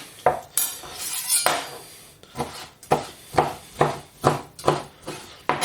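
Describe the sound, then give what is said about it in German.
Utensil scrapes and clinks against a pot and a small sieve as lecho is scooped out by hand over meat, with many short strokes in a steady rhythm. “Damit uns nichts verloren geht von dem schönen Lecho-Sud, ist das Siebchen einfach überm Fleisch, also im Topf überm Fleisch. Na, und dann wird halt händisch hier schön Lecho rausgenommen.”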